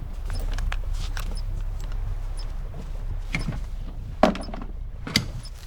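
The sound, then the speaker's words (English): A radio transceiver handset is hidden in a cupboard on a bridge: a few soft knocks and clicks, two of them sharper, over a low steady hum. “Josh is upstairs on the bridge, holding a radio transceiver. He looks around warily, then hides the handset in a cupboard.”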